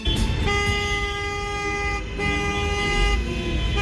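Car horns honk on Italian streets in long, sustained, steady-pitched blasts, one held note breaking off briefly before another comes in, over a low rumble of traffic.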